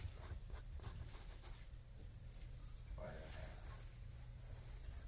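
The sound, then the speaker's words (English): A pencil draws a vertical line on paper, making a very faint, steady scratchy hiss that stays soft and even throughout. “All right, with that done, let's draw a vertical line. Divide it in half.”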